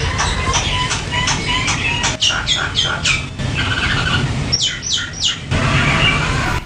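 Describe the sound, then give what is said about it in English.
Tropical birds sing in trees beside a hotel bungalow in Nadi, Fiji, with scattered chirps and short whistles over a dense, constant rushing background. “I could always listen to the tropical birds singing in the trees right beside my hotel bungalow,”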